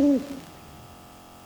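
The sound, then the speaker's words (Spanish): An owl hooting: one short, loud, low hoot right at the start, followed by near-silence over a faint steady hum. “Gracias, señor búho.”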